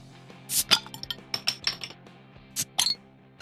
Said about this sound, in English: So let's go. Let's crack beers.